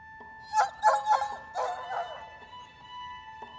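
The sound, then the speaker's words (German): Dogs barking: several sharp, high barks and yips in a quick, uneven series, fairly faint over a steady tonal hum. “Die Hunde versuchten, über die Mauern zu springen, aber sie waren nicht kräftig genug.”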